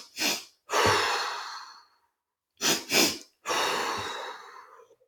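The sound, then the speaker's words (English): Breathing exercise done in rounds: short sniffing inhales through the nose, each set followed by a long, forceful exhale through the mouth. The second round plainly has two quick inhales before the exhale. Loud, with no talk. “you can do, as you said, like two inhales through the nose and a more vigorous exhale through the mouth”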